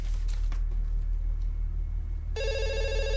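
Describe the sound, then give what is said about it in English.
A telephone rings with a bright electronic trill that starts abruptly partway through and continues to the end over a low, steady hum. “He turns with trepidation to the ringing phone.”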